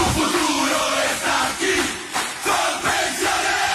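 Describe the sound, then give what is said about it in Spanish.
A stadium crowd cheers at a football match, a loud dense roar that carries on throughout with brief dips and swells. “¡Qué jugada! Para asegurar el mañana. La tribuna revienta de la dicha porque para ganar este partido estamos todos en la cancha.”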